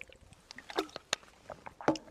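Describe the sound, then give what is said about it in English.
Faint sipping and swallowing as someone drinks water, with a few soft wet gulps and small clicks scattered across the quiet moment. “Let me drink my water here.”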